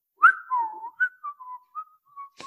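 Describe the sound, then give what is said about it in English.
A man whistles a short tune alone, a string of clear, steady mid-pitched notes, some held and some clipped, moving through several pitches with brief gaps between them. “Yes, you heard me. He's a whistler.”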